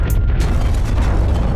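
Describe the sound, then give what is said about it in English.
A loud, continuous rumbling boom as a building is destroyed in an explosion. A deep, steady roar holds for the whole stretch, with a brief hissing crackle near the start and no voices. “What a delightful sound. It's the sound of your building being destroyed by your foolish actions.”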